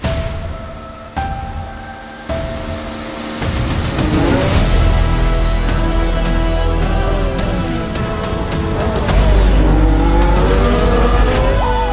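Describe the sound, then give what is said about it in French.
Race cars lap a circuit, engines whining and revving loudly as several cars pass, their pitch sweeping as they go by over a continuous, building roar of motors with no talk. “Il y a encore 20 pilotes qui tournent sur le circuit.”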